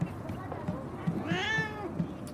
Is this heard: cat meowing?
yes